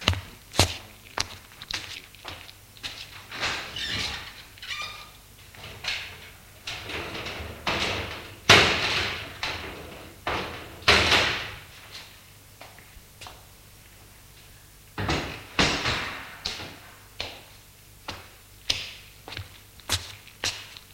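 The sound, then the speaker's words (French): Window shutters are opened and curtains drawn in an old woman's small bedroom. Many sharp knocks, clacks, scrapes and soft bumps are spread unevenly over about twenty seconds, some louder than others, with quiet gaps between them. “Il va ouvrir les volets et fermer les rideaux.”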